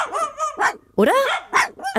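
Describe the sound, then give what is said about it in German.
Two playful dogs in the street bark and yip in short, bright, high bursts with quick pauses between them, and a voice speaks briefly. “Also, die beiden Kläffer da unten, ob die sich streiten? Oder nee, Moment. Die spielen einfach nur.”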